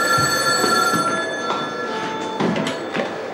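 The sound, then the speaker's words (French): A telephone rings with a continuous, bright electronic ring, its bell-like tones holding steadily through the whole clip over a faint low rumble. “Et puis un jour, le téléphone sonne”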